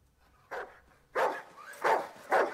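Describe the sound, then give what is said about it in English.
A dog tugging at its chain barks wildly in the night, giving four harsh barks. The first is softer, and the last three are loud and spaced roughly half a second apart. “But as he takes Isabel her dinner, he finds her tugging at her chain and barking wildly at the cornfield.”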